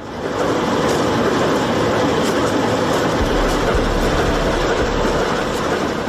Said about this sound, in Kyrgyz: Бул поезд шаардагы ири семент заводуна күн мурун келген көмүрдү чиркеп кетүүгө